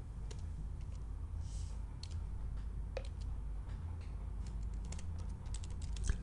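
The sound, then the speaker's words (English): Typing a Google search on a computer keyboard produces many soft, irregular key clicks, faint and unbroken by speech. “I'm going to type it into Google again right now just to get at the book. Hang on 1 second. You're going to hear some radio silence as I do that.”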